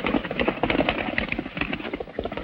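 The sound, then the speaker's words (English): Hoofbeats of horses galloping at a furious pace as a band of riders races in pursuit: quick, rhythmic clip-clop thuds that run on without a break. “Zanti's men ride on at a furious pace.”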